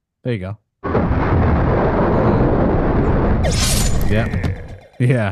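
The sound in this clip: Rocket launch sound effect played for an entrance: a loud, sustained, rumbling roar lasting about four seconds, with short spoken remarks just before and after it.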